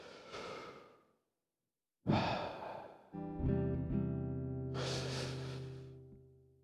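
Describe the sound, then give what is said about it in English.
Slow, deep breaths drawn during a guided prayer, with soft airy inhales separated by short pauses. Partway through, sustained instrumental tones enter and continue beneath the final breath. No one speaks. “would you breathe in with me just a couple times?”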